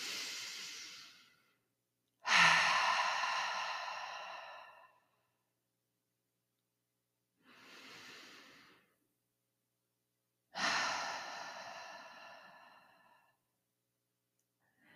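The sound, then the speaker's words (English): Deep breathing in and out, with a few slow, airy breaths separated by silences. Some breaths are fuller and louder than others, each swelling and fading with a soft hiss, and no talk is heard. “So as you're listening, I want you to take some deep breaths with me, okay?”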